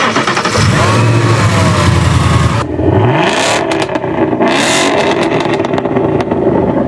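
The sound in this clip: A track-focused car's engine starts up and revs, loud and rough, with a heavy low drone and then a rising sweep in engine pitch as the throttle opens. No one talks.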